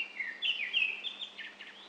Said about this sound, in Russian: На вершине высокого ильма поет сизый дрозд.